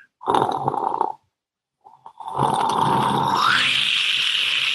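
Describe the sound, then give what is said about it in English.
A voice imitates the bubbling of a bong hit in two gurgling bursts: a short one, a pause, then a longer, steadier rumble whose pitch climbs toward the end. “Does that sound like Bob hitting his bong? Yeah, that's what I thought he was doing.”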